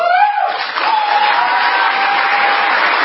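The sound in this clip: A military audience at CENTCOM, Central Command in Florida, applauds a speech with dense, steady clapping that stays loud and continuous from start to end.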